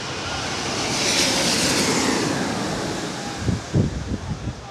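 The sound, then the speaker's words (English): An Austrian Boeing 777 airliner flies overhead near a runway, making a broad, loud engine roar that swells to a peak and then eases slightly, with some uneven low rumbling toward the end. “now we have something big flying over, it looks like. Oh, look, Austrian 777.”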